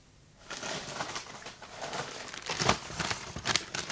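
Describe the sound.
A stack of grey paper envelopes, taken from an opened cabinet, rustles and crinkles as it is handled. After a brief near-silent moment come many quiet scraping, crackling paper sounds of varying strength.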